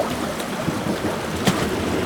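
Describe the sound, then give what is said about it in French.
Waves lap against granite rocks at a small reef: a steady, unbroken wash of water with soft splashing, and one slightly brighter splash near the middle. “le clapotis des vagues qui s'échouent sur des rocs granitiques.”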